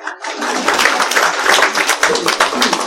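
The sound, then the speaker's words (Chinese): An audience applauds a young man, with many sharp claps in a quick, fairly regular rhythm that stays moderately loud and continuous after a brief quiet start. “我看到了一个最年轻的男人在表示为我们这个年轻的男人，我们为他鼓掌好不好？”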